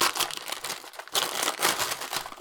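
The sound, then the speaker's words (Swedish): Gift-wrapping paper on a wrapped bottle is torn open, giving dense, loud crinkling and ripping rustles that come in quick bursts, with a brief lull just before the midpoint and no talking. “Nu, nu river jag sönder det här lite grann här. Jag är inte en lika duktig presentöppnare som min fru.”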